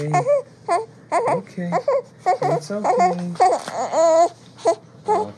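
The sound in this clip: A baby fusses during a diaper change, giving short, broken bursts of whimpering cries and babbling sounds in an uneven rhythm.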